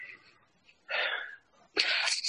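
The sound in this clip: A deep breath: two breathy rushes of air, each about half a second long, the second louder and brighter than the first, with no talking.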